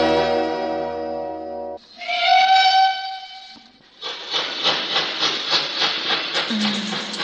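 A steam train whistle blows in two long, loud, harmonic blasts, followed by a steady rhythmic chuffing and hissing from the locomotive.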